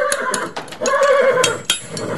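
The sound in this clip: A thoroughbred racehorse whinnies in a loud, wavering cry, with a few sharp knocking taps scattered around it.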